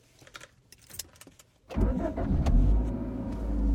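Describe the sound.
Keys jangle with a few light clicks, then a car engine starts with an abrupt roar and keeps running steadily, growing slightly louder toward the end.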